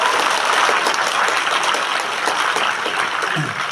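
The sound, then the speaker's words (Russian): An audience applauds during a Christmas Eve service in a church, a dense, steady burst of many hands clapping that holds at an even loudness for the whole stretch without voices over it. “Давайте похлопаем сейчас, мне кажется, надо похлопать.”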